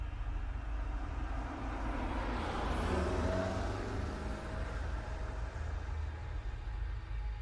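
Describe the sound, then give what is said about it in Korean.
A car accelerates hard from a traffic light on a rural bypass road, its low engine rumble steady and faint, swelling slightly around the middle before settling. “신호등이 파란불로 바뀌는 순간 나는 엑셀을 힘껏 밟아 급발진했다.”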